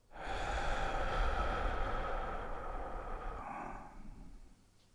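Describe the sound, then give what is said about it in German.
One slow, deep breath is drawn in through the nose and let out through the mouth, a long, soft, airy rush that holds steady and then fades away. “nimm einen tiefen Atemzug ein durch die Nase und aus durch den Mund.”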